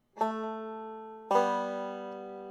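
Two guitar notes, each made by a push-off with a simultaneous right index pluck, sound one after the other. Each has a clean attack and then rings on with a bright, sustained tone.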